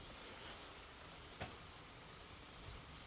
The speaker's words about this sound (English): That's my breakfast cooking. I'm having a bacon sarnia this morning.